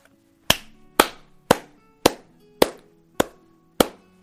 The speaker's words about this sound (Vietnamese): Một hồi tiếng vỗ tay vang lên, Nhiếp Song Song chợt xoay người